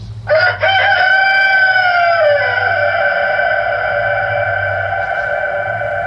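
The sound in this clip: A rooster crows once in a long, loud cock-a-doodle-doo that starts sharply and then draws out into a held, slowly fading note over a low steady hum.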